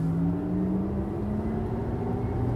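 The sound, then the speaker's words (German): A car driving along a road toward a small town near Rabat, its engine a steady low drone with a continuous rumble that holds even throughout, with no voices. “Gut, wir fahren jetzt zu einer kleinen Stadt namens Tiefeld.”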